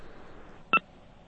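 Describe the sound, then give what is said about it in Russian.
A single short telephone beep marks a dropped phone call, a brief bright tone rising out of faint line hiss. “Это сорвался у нас звонок.”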